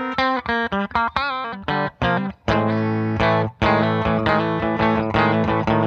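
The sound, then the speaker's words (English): Electric guitar clean tone on the bridge pickup: a quick run of short, separately picked notes with brief gaps, then fuller chords that ring and sustain. “That's our clean sound on the bridge pickup, which we'll probably just stick to the bridge.”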